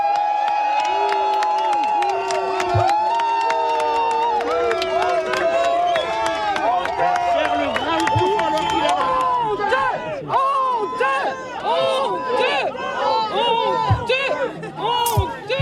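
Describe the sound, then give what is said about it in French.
A crowd of a few dozen local residents in Gironde greets a visiting minister after wildfires destroyed nearly 200 homes. Many voices shout and talk over each other, loud and dense throughout. “Je vous propose d'écouter l'accueil justement réservé par les quelques dizaines d'habitants du Porche présents auprès du ministre ce matin.”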